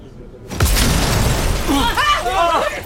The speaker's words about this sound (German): Die Fenster! Die Fenster! Die Fenster sind explodiert!